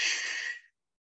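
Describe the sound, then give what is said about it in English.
A single deep breath during a guided breathing exercise at a service: a soft, airy rush of air lasting well under a second that fades abruptly into silence. “Inhale, exhale again. Inhale, hold it, exhale, release.”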